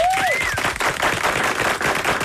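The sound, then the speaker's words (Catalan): Applause for a band: a dense wash of rapid clapping that stays loud throughout, with a short whistled tone or two at the very start. “que s'enduen aquest aplaudiment”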